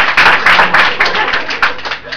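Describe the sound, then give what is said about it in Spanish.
A church audience claps along in a steady, rhythmic beat of several hands together. The fairly loud claps carry under continuous voices, speaking or singing. “aplaudan y métale”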